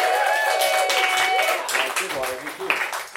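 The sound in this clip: Applause from a comedy show audience welcoming the next comedian onstage, a steady, dense wash of clapping that holds for the whole stretch with cheering voices mixed in and fading slightly toward the end.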